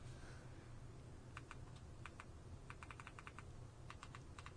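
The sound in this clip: Typing a search on a computer keyboard: light, quick key clicks in short uneven bursts, faint and alone over a low background hiss.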